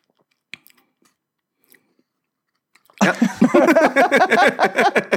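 Chewing on a Reese's Pieces candy with Reese's peanut butter cups inside. After near silence with a few faint clicks, loud, wet, rapid chewing starts abruptly and continues steadily to the end.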